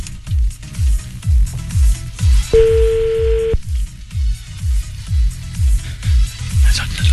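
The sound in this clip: A telephone ringback tone as a call is dialed: one steady, mid-pitched tone lasting about a second, heard over regular low thumping that runs throughout.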